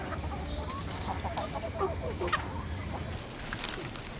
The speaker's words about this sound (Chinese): 看鸡啊，等鸡下蛋。